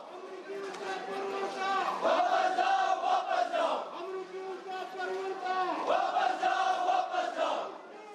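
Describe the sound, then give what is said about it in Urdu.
A protest crowd in Kargil chants slogans against Saudi Crown Prince Mohammed bin Salman. Many voices shout together in loud, rhythmic phrases that repeat again and again. “بن سلمان واپس جاؤ کے فلک شگاف نعرے بلند کیے جا رہے ہیں۔”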